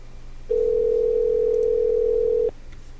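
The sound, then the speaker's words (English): A telephone ringback tone: one steady mid-pitched ring lasting about two seconds that starts and stops abruptly over a quiet background hiss. “Maybe he just needs a few dozen rings to wake up.”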